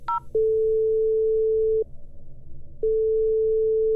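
A French telephone ringing tone plays while a call is placed: a short higher beep opens, then a long steady mid-pitched tone, a pause of about a second, and a second identical tone still sounding at the end.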